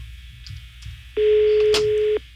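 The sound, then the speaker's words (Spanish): Telephone tone while a call is dialed, a single steady low beep lasting about a second that starts abruptly after faint background noise and cuts off cleanly. “Vamos a marcarle otra vez a la chica de las pestañas.”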